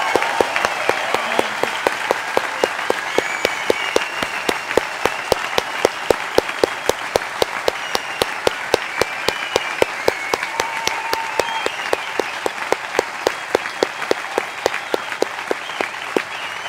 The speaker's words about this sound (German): Das ist euer Applaus. Danke für euren Einsatz. Applaus